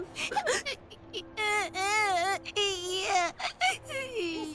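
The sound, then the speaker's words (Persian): A boy cries and wails in long, high, wavering sobs whose pitch rises and falls, broken by a few short gasping bursts. “پسر تو چقدر لوسی، تو تا کی میخوای گریه کنی؟”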